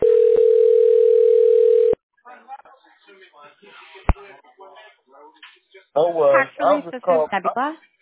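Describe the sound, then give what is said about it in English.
Steady telephone tone as an outgoing call dials and waits for an answer: one loud, unbroken tone lasting about two seconds, then a sharp click and people talking. “Okay, it's dialing now. It's dialing again. But they're not picking up...”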